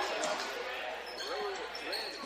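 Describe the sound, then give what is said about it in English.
Basketball being dribbled on the court during a game between the Audubon Wheelers and Griswold, a few hollow bounces under a commentator's steady talk. “A couple of dribbles and a kick out top.”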